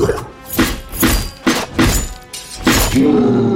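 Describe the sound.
Giant crab claws smash into a wooden ship's deck during a fight, landing as several heavy, crunching, splintering blows in a steady rhythm, each a loud burst of breaking noise.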